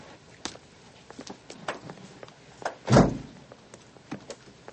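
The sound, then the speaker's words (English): A door opens and someone climbs out, giving a run of light clicks, taps and shuffles with one heavier thunk near the middle. “Then he slowly turns away, opens the door, and climbs out.”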